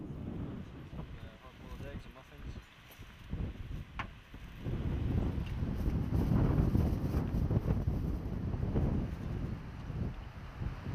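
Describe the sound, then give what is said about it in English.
Gusty wind buffets the microphone during lunch on the Tanzanian savanna, a low, rumbling roar that strengthens after the first few seconds and then holds steady. “Instead of seasoning our meal with pepper, the wind gives it a good sprinkling of dust.”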